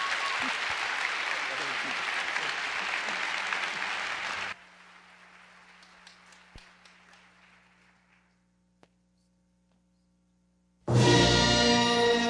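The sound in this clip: Audience applause welcoming a guest introduced as a colonel: loud, dense clapping for several seconds that then thins out and fades to near silence, before a sudden loud burst of other sound cuts in at the end.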